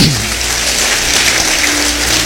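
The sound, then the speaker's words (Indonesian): An audience applauds, a loud, dense and unbroken patter of many hands clapping that stays even throughout. “Ya, beri tepuk tangan bagi dia.”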